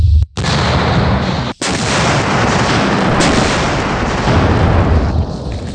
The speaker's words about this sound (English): It's because I want him to be super nervous about this shot.